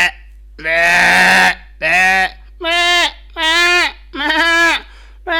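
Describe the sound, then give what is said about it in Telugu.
A human voice imitates sheep and goat bleating: five wavering, nasal bleats with strong harmonics, the first long and rough, the rest shorter and evenly spaced with brief pauses between. “అంటే మీరు రెండు కలిపేశారు ఇక్కడ, అంటే మేకని గొర్రెని కలిపారు sir.”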